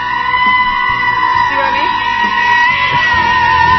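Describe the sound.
A goat's shrill screaming cuts into a meme song edit, with loud bleating yells mixed over sustained music.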